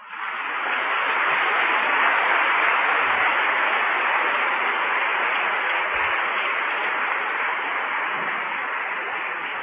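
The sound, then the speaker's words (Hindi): Audience clapping hands, a dense, steady wash of applause with a dull, muffled tone that holds for nearly ten seconds. “ताली बजाओ”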